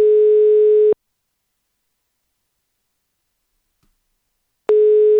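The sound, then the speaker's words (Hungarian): A telephone tone rings out on an unanswered call to an apartment landlord: two steady, buzzy, mid-pitched bursts separated by a long stretch of silence. “Vagy kiadta már, és már nem is veszi föl, igen. Valószínűleg az, hogy kapott egy jó pár hívást.”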